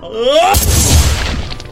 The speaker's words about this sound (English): picked up the gun from the seat, not hesitating for an instant as he jammed it into his mouth and pulled the trigger.